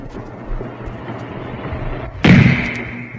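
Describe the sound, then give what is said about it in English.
A single sniper rifle shot cracks out suddenly and loudly over a low, dull background rumble, leaving a bright ringing tail that lingers briefly afterward. “Oh, the sniper! She's been shot! The sniper!”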